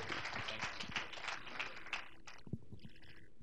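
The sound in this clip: Audience applause welcoming a speaker onto a stage: a dense patter of clapping for about two seconds that then fades out, followed by a few isolated thumps and faint tones.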